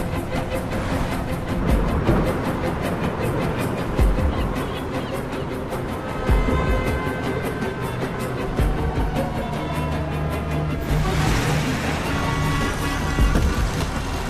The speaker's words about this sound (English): He's in a taxi crossing the Brooklyn Bridge.